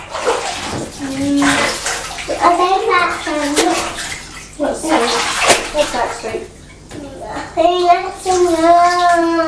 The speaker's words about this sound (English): I'm going to wash your hair.